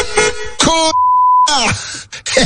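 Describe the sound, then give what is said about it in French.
A single steady censor bleep lasts about half a second and cuts into loud, strained speech. Voices are heard before and after it. “Eh bien joué le bip”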